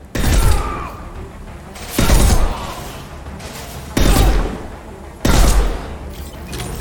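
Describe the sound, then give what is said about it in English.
Sniper rifle shots in a video game: four heavy, booming reports, roughly two seconds apart. Each has a sharp onset and a rumbling tail that dies into a steady low background. “Alright, let's try and get a sniper rifle going. Okay, pull!”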